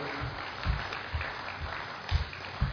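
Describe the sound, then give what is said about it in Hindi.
Applause from an audience welcoming the main speaker of a session: a faint, steady patter of many hands clapping, with a few slightly louder bursts and no voices over it. “आज के हमारे main सत्र के main speaker हमारे आदरणीय doctor मोहित गुप्ता जी को मैं आमंत्रित करना चाहता हूँ बड़े ही तालियों के साथ।”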